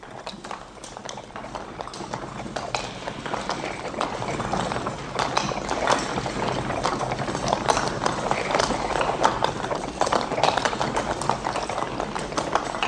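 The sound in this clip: Horses' hooves clip-clop as a carriage sets off, a dense, steady stream of many hoofbeats that grows somewhat louder in the second half over a low rumbling background.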